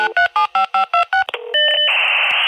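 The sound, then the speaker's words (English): Dial-up internet modem dialing: a quick run of about seven touch-tone beeps, then a short tone and a burst of crackle, followed by a steady modem tone that gives way to loud, rushing hiss. “Dial the internet sound most of our kids will never have heard.”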